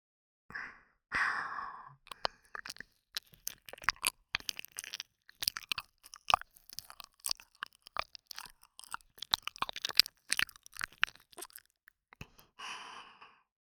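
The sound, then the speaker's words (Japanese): Wet saliva mouth sounds close to the ear, as in ASMR: many quiet clicks, smacks and crunchy chewing noises in an irregular patter. Soft breathy exhales open and close the sequence. “ほら またお耳に唾液の音聞かせてあげます。”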